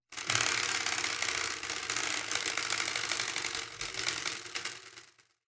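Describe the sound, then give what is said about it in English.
Rapid ratcheting clicks of a spinning prize wheel, a dense, steady mechanical clatter that runs for about five seconds before fading away at the end, with no voices. “give that thing a spin. Give our non-totalitarian wheel. Okay, here we go.”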